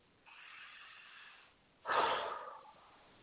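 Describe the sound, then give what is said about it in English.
A slow, deep breath drawn in through the nose, then a louder, breathy exhale out through the mouth, heard alone. “take a deep breath in through the nose, out through the mouth.”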